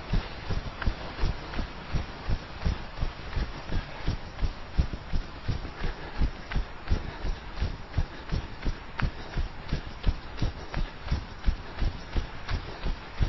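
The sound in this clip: Footfalls from jogging on the spot with high knees: many quick, evenly spaced thuds in a steady rhythm throughout, with no talk.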